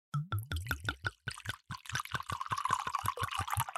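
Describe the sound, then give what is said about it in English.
White wine pours from a bottle into glasses: a quick run of glugging gurgles settles into a steadier, splashing stream that fills the glass. It stays fairly soft, with no talk over it. “So we are both now pouring our glasses of white.”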